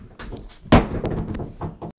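A sharp thump and clatter as a cat leaping at a fly at a window knocks a crystal down. One loud impact is followed by smaller bumps and rattles.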